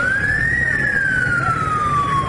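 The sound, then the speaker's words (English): An ambulance siren wails as the vehicle rushes to a general hospital in Yaoundé, Cameroon. A single loud tone climbs briefly and then slides slowly downward over a steady rumble of traffic. “This ambulance rushed to the Yaoundé General Hospital last month”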